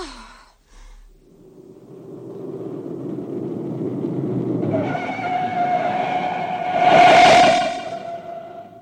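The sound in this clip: A car engine starting off and driving: a low rumble that builds steadily and rises in pitch, swells into a loud rushing peak near the end, then eases off.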